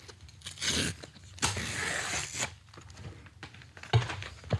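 Rough ripping and tearing of a package being torn open in a studio, in several broad, noisy bursts with crinkling between them, and no talking.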